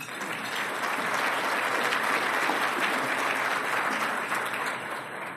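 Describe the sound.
An audience at a City Club event applauds to thank its sponsors, a dense, sustained round of clapping from the crowd that stays even in loudness throughout, with no talk over it.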